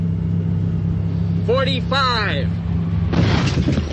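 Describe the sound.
A car accelerates toward a barrier during a crash test, its low engine hum steady and continuous. A voice cuts in briefly midway, and a burst of broader noise rises near the end.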